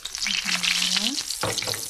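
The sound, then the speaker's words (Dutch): Food deep frying while submerged in hot oil: a dense, steady sizzle and crackle of bubbling fat that runs loudly and evenly from start to finish. “Ze noemen dat wel deep frying in het Engels. Dat betekent dat hij echt... het is iets tussen frituren en bakken in.”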